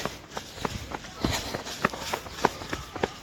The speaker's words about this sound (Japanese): スタート地点に戻ってきましたあとはセンターに入って中を少し走ってゴールです